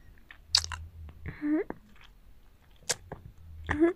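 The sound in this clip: Someone chews a large meatball, wet, squishy mouth sounds with a few sharp smacking clicks, broken by brief muffled voiced hums.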